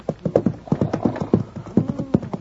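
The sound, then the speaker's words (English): Clip-clop of a horse's hooves, a horse with a cart in an Old West ranch setting, many crisp, evenly paced hoofbeats in a steady rhythm, loud and alone. “I'll tie my horse and cart him behind, but run along, you two.”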